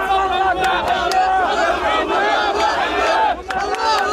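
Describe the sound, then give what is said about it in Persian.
Israelis cheer and chant as a crowd, celebrating the release of hostages held by Hamas. Many voices shout together in a loud, unbroken roar for the whole stretch. “شادی اسرائیلی ها به خاطر آزادی شماری از گروگان ها از دست حماس.”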